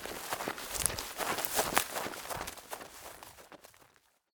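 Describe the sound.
Hurried footsteps move through a forest, a quick run of many rustling, crunching steps over a noisy ground texture. They stay fairly steady before thinning out and fading to silence.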